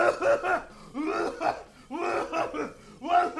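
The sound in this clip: Voice imitating coughing, mimicking a cashier at a discount store register who was coughing over everything with her mask around her neck. A few clustered, voiced, harsh bursts come in uneven rhythm and fall close to laughter.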